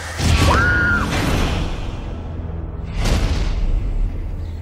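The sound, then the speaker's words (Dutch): Dramatic sound effects from the Jurassic Park III film trailer: loud sweeping whooshes over a low rumble, with a brief sliding tone early on and a second big whoosh later. “Voilà, c'est een trailer.”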